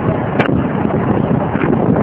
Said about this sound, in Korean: 지금 너무너무 시원한 바람 맞으면서